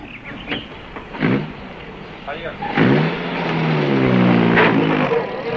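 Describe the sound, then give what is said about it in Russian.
A bus drives away, its engine rumbling and slowly swelling in a broad, rising roar beneath voices talking. “Автобус уезжает”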